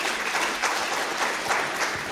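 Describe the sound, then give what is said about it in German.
Audience applause welcoming two guests at a gathering: steady, even clapping from many hands that keeps a constant level across the whole moment. “Wir dürfen das mit einem Applaus begrüßen.”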